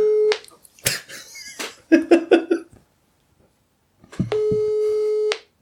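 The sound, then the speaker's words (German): A telephone call is placed. A short tone is followed by clicks, taps and a quick burst of dialing tones. After a brief silence, a long steady ringing tone sounds. “So, ich rufe ihn mal an, nicht, dass er traurig ist.”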